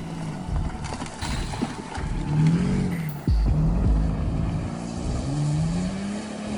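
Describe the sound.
A car driving on a road gives a continuous engine drone and road rumble, with the engine note wavering up and down. It stays fairly loud throughout, and no one speaks.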